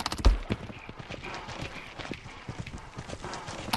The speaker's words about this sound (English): there's a fair amount of sampling in this work, from galloping horses